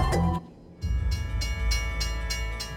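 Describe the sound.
A train moving along railway tracks gives a loud, steady low rumble with rough, rhythmic bursts on top. The sound dips briefly early on, then carries on alone.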